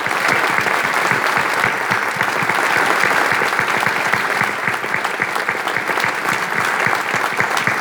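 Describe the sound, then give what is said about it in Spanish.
Loud applause rises for teachers and teaching assistants in a municipal council chamber, with many hands clapping steadily and densely for the whole stretch. “pido en este recinto un fuerte aplauso para nuestros maestros y auxiliares docentes.”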